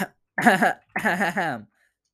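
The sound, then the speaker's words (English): A person coughs and clears their throat in two harsh, voiced bursts: a short one, then a longer one after a brief pause, loud and alone. “I would cough like that for like at least 5 minutes.”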